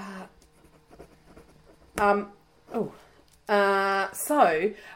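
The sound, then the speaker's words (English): A pen scratching as something is written down: faint, irregular scribbling strokes, broken by loud bursts of vocal sound from people. “Can you write that down? Yes, I will write that down.”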